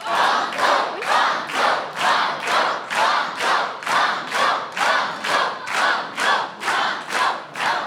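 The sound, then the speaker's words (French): Audience on a French TV quiz chanting 'banco' in unison, many even rhythmic pulses of massed voices with clapping, each beat swelling and fading at a steady, insistent pace. “Entendre toutes ces voix chanter banco,”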